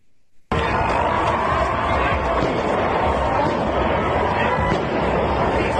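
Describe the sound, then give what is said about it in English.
A few sharp gunshot-like pops at an outdoor protest in Utah, buried in a loud, steady crowd din, with people talking throughout. “That's a gun. That's a gun.”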